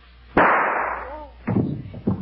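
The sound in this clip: A single loud gunshot as a woman shoots herself, a sharp crack with a long decaying tail, followed by a few softer thuds and rustles.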